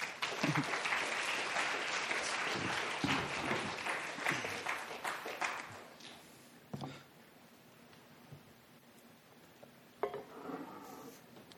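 Audience applause welcomes panelists to the stage at a church panel discussion on women and the church: dense clapping for about six seconds, then thinning to scattered claps.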